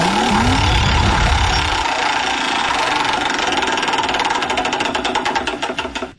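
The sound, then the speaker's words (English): A game-show prize wheel spins, giving rapid ticking clicks that gradually slow toward a stop. A low rumbling noise sits under the first couple of seconds. “let's spin the wheel”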